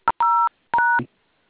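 Phone keypad tones dialing a USSD code: three clear electronic beeps, a brief first one followed by two longer steady tones, with short silences between them.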